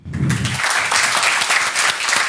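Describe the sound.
Audience applause after a group presentation. Dense, steady clapping holds at an even, loud level throughout with no voices over it.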